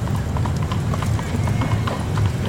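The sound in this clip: Horse hooves clip-clopping steadily as a horse-drawn carriage rolls along, with a brisk, even rhythm under people talking.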